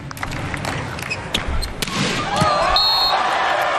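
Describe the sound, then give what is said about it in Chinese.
Volleyball ace serve slapping the court: sharp impact smacks ring out among other clicks, then a crowd roar swells and holds. “Ace 球，这兄弟俩的发球的性能一直非常好。”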